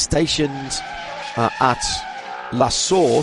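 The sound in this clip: Race car engines from television highlights of safety-car restarts at the Spa 24 Hours, a rushing engine drone with bursts of tire skidding running beneath continuous talk.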